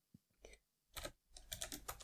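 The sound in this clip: Keys clatter softly on a computer keyboard as notes are typed into a digital notebook: a few isolated taps at first, then quicker, irregular bursts of keystrokes, faint and without speech.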